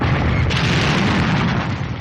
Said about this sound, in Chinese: 手榴弹在爆炸，掀起一个巨大的火团。